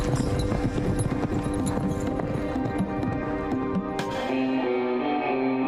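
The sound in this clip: Hooves of a ridden horse clip-clop in a steady, continuous rhythm, each strike crisp and even in loudness from start to finish.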